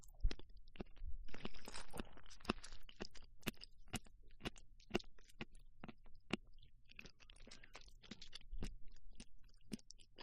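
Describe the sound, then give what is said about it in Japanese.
Someone chews a chewy mushroom, giving many soft wet clicks and squelches in an irregular rhythm, fairly faint and with no talk. “もちもち感がありますね。じゃあ私キノコ食べますね。”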